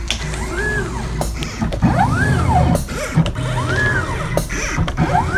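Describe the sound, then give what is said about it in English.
Mechanical whirring and clicking from a mat cutter in a picture framing shop: a steady, fairly loud machine drone with repeated motor tones that rise and fall in pitch, broken by a few sharp knocks. “A listener in Armonk, New York, sent us this sound of their mat cutter from their framing shop.”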